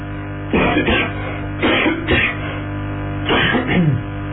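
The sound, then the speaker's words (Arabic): Coughing from someone with a lingering cough: three short, rough bursts spaced a second or so apart, each a cluster of harsh hacks, over a steady low hum. “اظن بقى موضوع كحة بقى له طول معانا شويه فاعذرونا”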